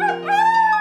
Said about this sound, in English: but does anybody else hear a wolf howling?